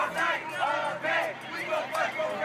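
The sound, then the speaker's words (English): Demonstrators at the 2015 Baltimore protests over Freddie Gray's death chant in unison, loud shouted voices repeating in regular bursts that rise and fall. “What you're hearing is footage from demonstrations and riots following the death of Freddie Gray at the hands of Baltimore police in 2015.”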